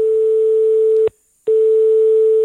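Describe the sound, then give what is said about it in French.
Telephone call tone while ringing someone, a steady low-pitched hum that stops for a brief gap and then resumes unchanged, with no voices. “Du coup, on va appeler Jean-André.”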